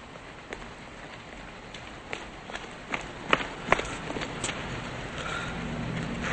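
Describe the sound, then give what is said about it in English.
A man jogging into an alley, his footsteps a string of many light, irregular thuds over a steady background hiss. “Outside, a man jumps over a fence and jogs into an alley.”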